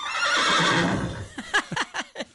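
A horse neighs loudly, beginning with a broad breathy whinny and then breaking into several short, quavering pitched bursts that fade toward the end.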